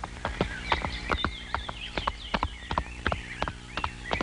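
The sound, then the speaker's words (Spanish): A horse's hooves clip-clop in many sharp, uneven strikes as it steps and prances on command, with high warbling tones above. “Ese es mi hijo, véngase caballo, véngase, véngase. A ver, mi adiós, salúdenme. Parece chivito, párese de manos, párese otra vez. Ese es mi caballito, caramba.”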